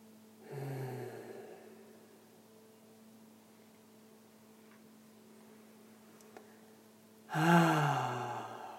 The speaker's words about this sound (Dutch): Adem maar een paar keer. Even bewust ruim in en uit.